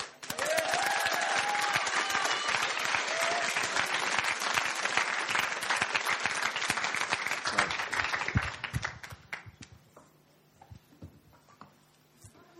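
Loud, steady applause welcomes two guests onto the stage at a faith discussion event. Dense clapping holds for about eight seconds, then thins out and dies away.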